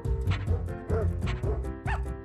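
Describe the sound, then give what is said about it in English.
Dogs barking and yipping in a chorus within a music track: a few pitched, rhythmic barks rising over a steady musical bed, each a short, bright burst. “Is this a dog chorus singing in the background?”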